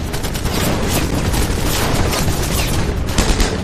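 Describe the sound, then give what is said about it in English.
Heavy gunfire from German lines during a wartime assault near a bridge, a loud, dense fusillade of overlapping shots and bursts that continues without a break. “They are met with blistering fire from the German lines.”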